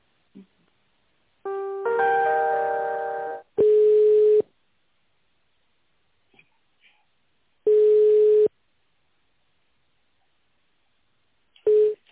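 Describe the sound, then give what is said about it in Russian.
Telephone line tones play while an office call is transferred to another extension. A brief chord of several pitches comes first, then three long, steady mid-pitched beeps sound several seconds apart with near silence between them. The last beep is cut short, and no one talks. “Сейчас я вас переключу на Глеклера Андрея”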